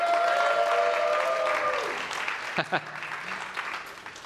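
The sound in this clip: Audience applause welcoming three people onto a stage: dense, continuous clapping that stays full for about two seconds, then thins into a looser patter toward the end.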